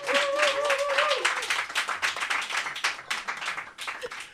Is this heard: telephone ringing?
no